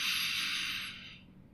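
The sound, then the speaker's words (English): A deep inhale through the nose: one steady, airy hiss that is strongest at the start and gradually fades away over about a second, with no voice over it. “And I'd like you to take one very deep breath in through the nose”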